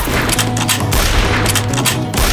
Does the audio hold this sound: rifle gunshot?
yes